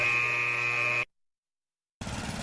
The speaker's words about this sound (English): I'm just mowing the lawn.